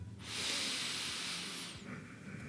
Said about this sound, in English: I want you to take a nice deep inhale,